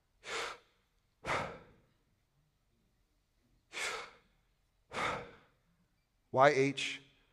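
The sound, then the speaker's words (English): Breath exhaled by a person imitating how the divine name YHWH might be pronounced: four separate airy outbreaths with pauses between, then a final short, voiced, sighing breath. “YHWH. It's the sound of breath. It's the sound of breath.”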